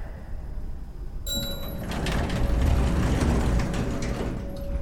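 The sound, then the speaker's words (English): Elevator machinery starts up behind dirty metal doors. A mechanical clunk is followed by a grinding, ratcheting whir and a steady humming tone, and the whole sound swells louder and stays continuous. “The metal doors are dirty, but they don't look rusted shut or anything. If this place has power, think the elevator might work? There's only one way to find out.”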